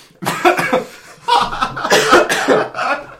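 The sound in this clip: Coughing from a tickle in the throat: a short burst of dry coughs, a brief pause, then a longer run of repeated, loud coughs with no talk over them.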